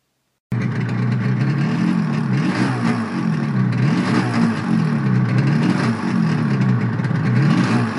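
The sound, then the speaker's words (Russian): A powerful engine on a big blunt-nosed fuel tanker truck bursts suddenly into a loud roar out of silence. It then holds a steady, heavy rumbling drone that wavers gently up and down in pitch. “И вдруг внезапный рев мощного мотора вырвал его из процесса созерцания.”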